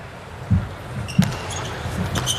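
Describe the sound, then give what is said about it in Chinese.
A volleyball is bounced on the court before Timmel's serve: a few low, dull thumps, the first two clearest, over steady arena crowd noise. “对， 蒂梅尔的发球，”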